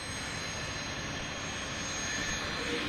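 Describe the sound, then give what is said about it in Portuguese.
A steady, broad engine roar from a Brazilian Air Force military cargo plane at the Canoas air base while cargo is loaded. It holds an even loudness throughout with no talk over it. “Próximos ao embarque, esse é o avião que vai realizar a missão, um cargueiro militar da Força Aérea Brasileira.”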